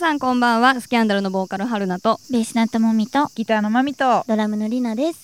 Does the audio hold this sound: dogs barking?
no